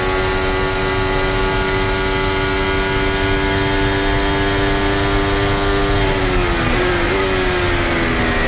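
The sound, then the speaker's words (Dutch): High-pitched engine whine from Lewis Hamilton's Ferrari Formula 1 car, heard onboard during a race. The tone holds steady and loud with dense harmonics, then dips briefly near the end before settling again. “Onboordgeluid van Lewis Hamilton.”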